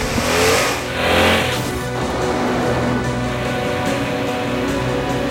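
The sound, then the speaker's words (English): A car speeds through a chase and crosses a bridge over a canal, its engine roaring with dense road noise and two louder surges early on before settling into a steady, loud drone. “The car leaves the ground as it crosses a bridge over a canal.”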